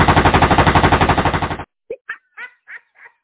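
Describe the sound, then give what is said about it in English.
Rapid gunfire: a fast, loud burst of many evenly spaced shots lasting about a second and a half that cuts off abruptly, followed by a few short, sharp sounds. “Shot fired.”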